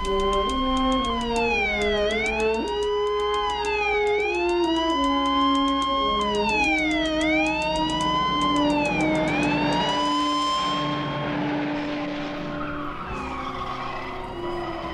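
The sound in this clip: Police sirens wailing in a 1970s film car chase, with repeating falling and rising sweeps every couple of seconds over engine noise, followed by a broad, noisy burst of skidding tires later on.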